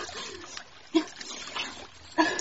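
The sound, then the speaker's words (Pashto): Handfuls of cold water splash onto a face during winter washing at a stream, giving two sharp splashes among softer trickling and dribbling, all fairly faint. “زه به مې مخ باندې یو څو لپې اوبه اچو”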